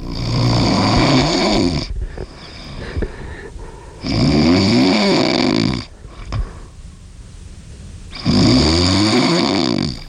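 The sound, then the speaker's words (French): A person snores in three long, loud, rasping snores at an even rhythm, each separated by a few seconds of quieter breathing. “Beaucoup de gens dans l'équipe ronflent exactement comme vous”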